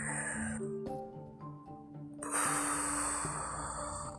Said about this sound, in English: like that, like, take a deep breath in. Blow it out